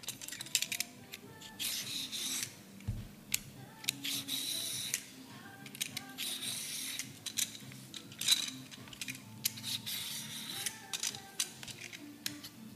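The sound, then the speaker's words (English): Peeling a daikon radish in a kitchen: many quick, dry scraping strokes in irregular bursts, fairly soft, with no talking over them. “I'm just going to trim off the top and the bottom. And I'm going to peel it now.”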